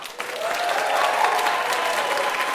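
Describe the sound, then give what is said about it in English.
Steady audience applause welcoming two contestants to the stage at a live Wikipedia-themed comedy game show. Dense, even clapping swells quickly and holds at a constant level throughout. “Please welcome to the stage our contestants”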